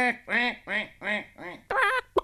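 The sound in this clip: A voice imitates a duck quacking in a children's farmyard story: a quick run of nasal, arching quacks, the last one louder and brighter.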